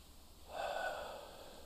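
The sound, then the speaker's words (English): A single slow, deep breath, a soft airy rush that swells and then trails away, faint and heard alone. “I'm going to invite you to breathe deeply, deeply in and deeply out.”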